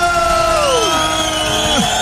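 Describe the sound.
Studio audience cheering and whooping as a guest is welcomed, loud and continuous, with high whoops sliding downward in pitch above the crowd noise.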